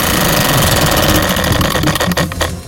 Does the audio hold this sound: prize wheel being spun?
yes